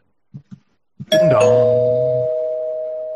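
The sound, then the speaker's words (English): A spoiler bell sound effect rings once, a bright struck tone that hangs and slowly fades, preceded by three short soft taps. “surprise, surprise, I hit the spoiler bell”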